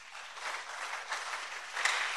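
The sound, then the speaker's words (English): An audience claps in sustained applause, a dense, even patter of many hands that stays at a moderate level for the whole stretch, with no voices over it. “You want to clap, clap better for Jesus.”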